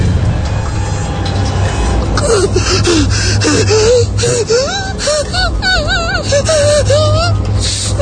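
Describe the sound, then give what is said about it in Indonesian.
Ragged gasping and panting for breath mingle with a wailing, moaning voice whose pitch wavers up and down, all over a steady low hum that runs unbroken through the whole stretch. “Sekarang terasa nafasku tersengal-sengal. Aku sulit bernafas. Nafasku sesak.”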